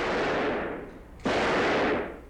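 A single gunshot: one sharp, loud crack cuts through a rushing noise bed, then its broad blast decays over about a second.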